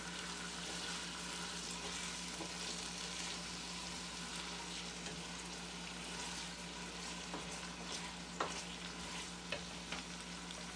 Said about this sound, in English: I right now can smell the onions. I can, as I'm stirring, I can feel them getting softer. And my handles on my pot are still cool. I'm still sauteing.